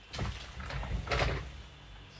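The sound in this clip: A window slides open with a soft, low rumbling drag and a few light knocks as the frame moves, fairly quiet throughout.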